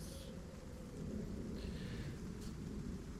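A thunderstorm with a continuous low rumble and a steady rain-like hiss, quiet and even throughout, with faint brief higher gusts over the roar.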